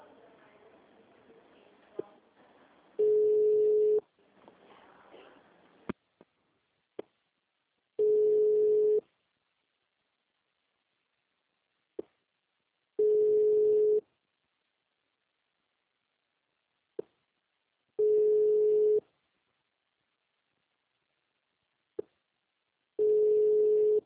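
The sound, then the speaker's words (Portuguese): Ringback tone of a telephone call ringing on the line: five steady, evenly spaced mid-pitched tones, each about a second long, repeating roughly every five seconds, with faint clicks between them and low background noise at the start. “Não atende esse negócio, velho. Tá me deixando nervosa. Não, não atende. Tá chamando.”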